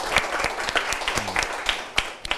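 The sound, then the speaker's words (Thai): Students in a classroom clap for a classmate: a sparse, uneven patter of distinct individual claps from a small group, fairly soft and steady throughout. “ปรบมือให้เพื่อนด้วยนะครับ”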